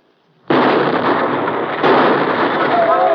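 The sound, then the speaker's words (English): Grenades exploding beside a fence: a sudden loud blast bursts in and holds as a dense, sustained roar, then a second surge lifts it again partway through and carries on to the end. “uncorks both grenades and lobs them down beside the fence.”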